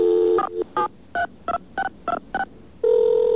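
A telephone number is dialed to call a voicemail system: a steady tone, then a quick run of crisp touch-tone beeps, then a steady tone again.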